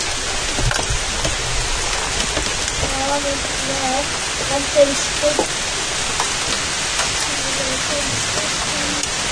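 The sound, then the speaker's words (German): Steady rain falls on leaves and drips from them outdoors after a passing thunderstorm, a dense, even hiss of patter that runs throughout, with faint voices and a few soft tonal sounds underneath. “Aber der Regen bleibt. Hier regnet es sowieso nur zweimal. Einmal auf die Blätter und dann von den Blättern.”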